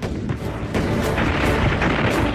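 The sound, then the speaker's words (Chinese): Artillery fire from a concentrated barrage on a group of enemy bunkers: a dense, continuous roar of overlapping booms and blasts, loud and unbroken throughout. “东北野战军炮兵集中火力射击国民党军沛水池地堡群，4发命中。”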